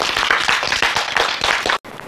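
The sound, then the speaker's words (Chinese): Students applauding their engineers in a class: dense, steady clapping from many hands that cuts out briefly near the end, then resumes at a similar level. “是不是要为我们的工程师鼓掌啊？”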